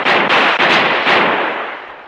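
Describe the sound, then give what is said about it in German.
A rifle gunfire salute fired on a shore in India: a rapid volley of sharp, loud cracks that blur into a dense, crackling roar, then slowly die away. “Was soll diese alberne Ballerei? Salut muss mit Kanonen geschossen werden, nicht mit Gewehren.”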